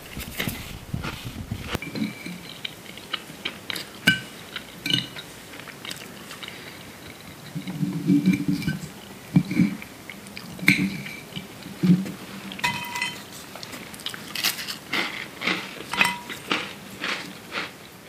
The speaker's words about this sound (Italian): crackers.